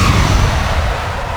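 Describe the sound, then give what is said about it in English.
Spacecraft launch ignition, a loud continuous blast and roar with deep rumbling, sustained and unbroken, heard alone. “Initialize launch procedure.”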